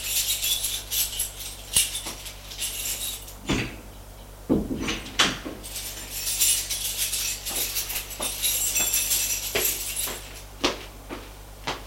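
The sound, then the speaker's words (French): A key locks an apartment door: many small metallic clicks and a few heavier clunks, densest in the middle, over a steady low hum. “Et sort de l'appartement. En prenant bien soin de fermer à clé.”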